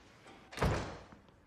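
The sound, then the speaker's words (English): An office door is shut with a single dull thump, fairly soft, and a short fading tail follows. “shuts the office door and closes the blinds.”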